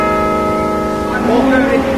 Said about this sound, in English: the bells in the tower of Evesham's ancient abbey ring out 110 feet above the town, welcoming the new day.